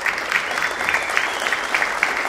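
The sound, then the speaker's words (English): Studio audience applause at a live music radio show in Kentucky. Many hands clap in a bright, even patter, steady and fairly full from start to finish, with no voices. “We also thank the members of our great studio audience tonight for being with us, for supporting the mission of Red Barn Radio. Yes, give yourselves a hand.”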